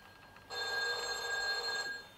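A telephone rings once in a steady, bright electronic trill lasting over a second, with a continuous tone throughout and no voices.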